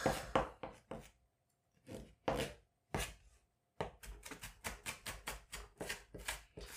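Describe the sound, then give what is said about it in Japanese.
A knife finely minces onion for fried rice with sharp chopping taps, first in short irregular bursts broken by pauses, then in a faster steady run of many quick strokes. “今、みじん切りをさらに細かくしてます。”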